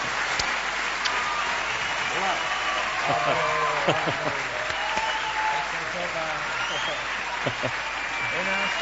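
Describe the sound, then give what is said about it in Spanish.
Audience applause greeting a guest arriving on a live radio show in Tarragona: dense, steady clapping that carries through the whole clip while voices talk over it. “Un aplauso muy fuerte para Andreu Buenafuente”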